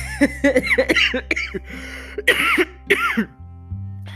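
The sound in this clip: A person with a hoarse, worn-out voice coughs and clears their throat over and over. A fast run of short hacking bursts gives way to a few longer, rasping coughs, over a steady low hum.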